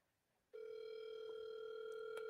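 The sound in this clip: A radio host's phone line gives a steady, unbroken telephone tone while a call is being placed. The tone cuts in abruptly after a brief silence and holds at an even level with a buzzy, harmonic edge.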